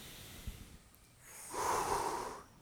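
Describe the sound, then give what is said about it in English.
A group of people takes one deep breath together: a soft, airy rush that swells and then fades over about a second. It is faint, with no talk. “Everyone, let's take another breath again.”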